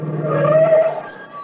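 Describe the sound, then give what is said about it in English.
A car, a Cadillac, drives up and pulls in at the front of a club: a steady engine hum with a whining tone that swells through the middle, then eases and thins out toward the end. “later that evening, we find Mr. and Mrs. Harris driving up in front of the Beverly Hills Club for the studio party”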